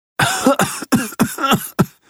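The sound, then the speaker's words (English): A person with a cold and sore throat coughs six times in quick succession, each cough a short, harsh, throaty burst of similar loudness, with no talking between them. “Do you have a cough, too?”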